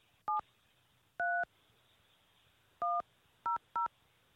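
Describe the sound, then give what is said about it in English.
Telephone keypad tones entering a PIN on a phone line: five clean DTMF beeps, each a steady two-tone chirp, spaced irregularly over a low background hiss with no voices. “Please enter your show or meeting number and press pound. Enter your 6-digit PIN number.”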